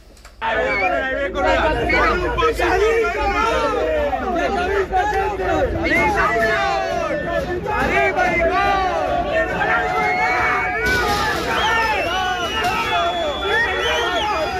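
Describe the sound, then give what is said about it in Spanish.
Football fans whistle and shout as the players arrive at Manises. Many shrill whistles and raised voices merge into a dense, continuous din that holds a steady loudness throughout. “Este es el sonido de Manises ayer a la llegada de los futbolistas.”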